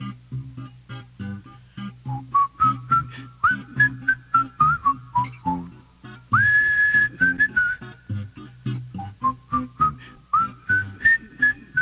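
A whistled melody in a song, bright and clear, moving through rising and falling phrases with one long high note held midway. A steady rhythmic instrumental accompaniment pulses underneath throughout.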